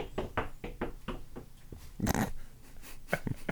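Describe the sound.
A dog moving about, its tail given as the source, makes many short, soft thumping and huffing sounds in a quick irregular series, fairly faint throughout with no talk.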